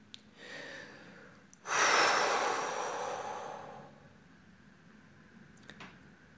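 A deep, calming breath taken in a lift: one long, airy breath lasting about two seconds that starts abruptly, then tapers away into quiet background hiss.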